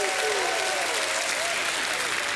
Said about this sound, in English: Give the Lord a hand clap and a shout of praise.